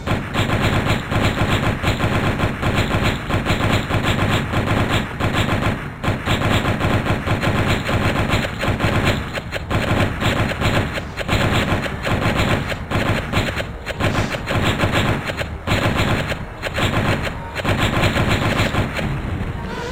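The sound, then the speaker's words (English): Machine gun fire in a 3D browser graphics demo, loud rapid bursts of shots that rattle almost without pause, broken by a few brief gaps between volleys. “And now I believe I'm gonna attack this thing, the machine gun.”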